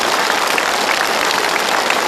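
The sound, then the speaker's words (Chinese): Sustained audience applause at a gathering, a thick, uniform roar of clapping from many people that holds loud and steady throughout. “他们的掌声都送给你，为什么？”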